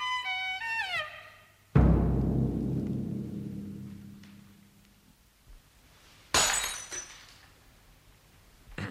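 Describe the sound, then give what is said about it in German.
A dropped glass breaks with a loud crash and a long, ringing, tinkling decay, followed a few seconds later by a second sharp clink of glass. A short falling run of bright tones comes just before the crash. “Sie haben das Glas fallen lassen”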